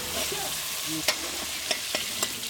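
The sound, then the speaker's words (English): A dish is stirred and mixed, ready for serving. Four sharp utensil clicks stand out over a soft, sizzling hiss. “So you just mix it up? Just like that. It's ready for serving now.”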